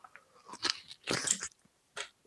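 Someone eats crunchy food with loud bites, followed by chewing. A few crisp crunching bursts are separated by short quiet pauses, with no talk.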